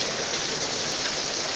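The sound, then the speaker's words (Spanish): Heavy rain pours down outdoors on a mountain at Santa Elena, a dense, steady hiss of drops that stays even and loud throughout with no voices. “Está lloviendo mucho por acá.”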